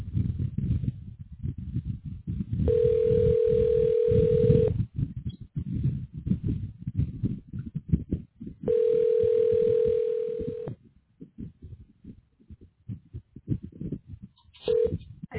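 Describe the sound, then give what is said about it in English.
Telephone tone while dialing a call: two long, steady, mid-pitched tones of about two seconds each, separated by long gaps, with a third just beginning at the end, over a low rumbling background. “Dialing.”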